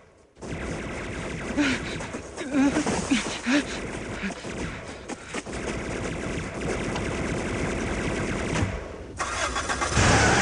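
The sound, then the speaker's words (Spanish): A car roars to life and revs hard as it speeds away burning rubber, loud and continuous with rough surges, dipping briefly near the end before another burst. “Va quemando gomas.”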